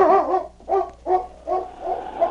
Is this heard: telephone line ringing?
no

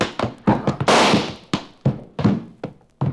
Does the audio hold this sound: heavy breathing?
no

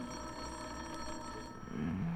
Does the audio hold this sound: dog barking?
no

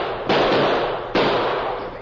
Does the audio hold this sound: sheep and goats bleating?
no

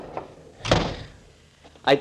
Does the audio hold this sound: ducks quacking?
no

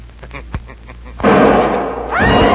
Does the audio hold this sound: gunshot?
yes

